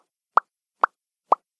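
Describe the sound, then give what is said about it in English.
Lips popping, three sharp, evenly spaced pops, each short and fairly loud with a hollow, bright tone, separated by clean silence and no voices. “It was just me popping my lips.”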